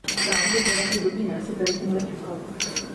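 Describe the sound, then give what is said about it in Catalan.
Wine glasses clink in a toast between friends, giving a few bright, ringing chinks of glass with voices talking around them. “Ah, molt bé, això eren unes copes, jo vaig dir que era com un cambrer recollint les copes així amb la mà. Era un brindis entre amics.”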